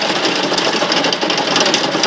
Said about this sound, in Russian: Летчик выключает двигатели. Пропеллеры останавливаются.